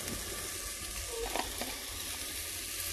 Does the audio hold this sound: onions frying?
yes